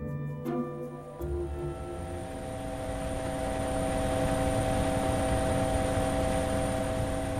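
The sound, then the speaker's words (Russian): A helicopter comes down at a military facility in New Mexico. Its engine whine and rotor drone hold steady tones that slowly grow louder, with a few short knocks near the start. “Вертолет поднял в воздух облако пыли и опустился на территории”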